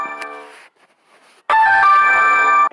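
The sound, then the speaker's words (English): A mobile phone rings with a bright, melodic electronic tone. Fainter tonal notes come first, then a short near-silence, then a loud sustained burst of the ringtone. No one speaks. “That's my phone ringing.”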